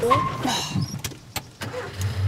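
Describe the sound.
Car engine during a driving lesson as the clutch is released and the car pulls away: a low engine hum with a few sharp clicks in the middle, and the rumble swelling again toward the end.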